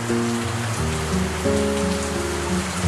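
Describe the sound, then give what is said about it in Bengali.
Steady rain falls outside an old house during the city's monsoon season, a continuous, even patter that holds at a constant loudness without a break. “বাইরে বৃষ্টি পড়ার একটানা ঝুমঝুম শব্দটা বাড়তে খেয়াল হলো শহরে তখন বর্ষা।”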